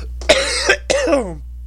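Two rough throat-clearing coughs in quick succession, each a short raspy burst, the second trailing off into a lower-pitched rumble before silence.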